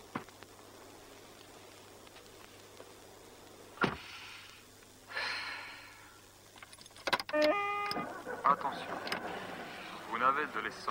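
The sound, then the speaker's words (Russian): A person gets into a car. A sharp thump comes first, then shuffling and rustling, followed by metallic key jangles and assorted clicks and rattles that grow busier toward the end. “Садится в машину.”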